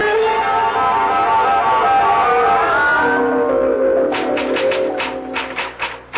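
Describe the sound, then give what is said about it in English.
Typewriter keys clack out a letter in a quick, uneven run of sharp clicks that follows a sustained tonal passage, which fades as the typing begins. “Oh, I'm typing your letter to the President of the United States”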